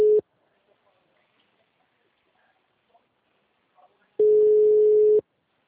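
Telephone ringback tone of an unanswered call: a brief clipped tone at the start, a long silence, then one steady, mid-pitched tone lasting about a second near the end.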